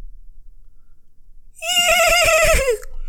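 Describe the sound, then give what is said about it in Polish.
A rearing horse lets out one loud, bright whinny about a second long that wavers and then drops in pitch at the end, after a quiet low rumble. “koń Dietricha wznosi się i jego kopyta próbują uderzyć w twoim kierunku.”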